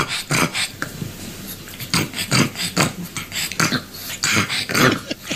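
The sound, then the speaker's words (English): A pug dog makes a string of rough, raspy snorts and growly grunts, coming in many irregular bursts with short pauses between them, moderately loud and with no talk. “What animal is that, and should I be afraid? Not really. That's a pug.”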